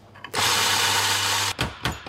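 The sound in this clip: A big coffee grinder grinds beans at a medium-fine setting: a loud, steady whirring grind lasting over a second, then two short bursts of grinding.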